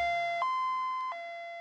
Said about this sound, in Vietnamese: Vừa đúng lúc tiếng còi inh ỏi của xe cấp cứu vang lên.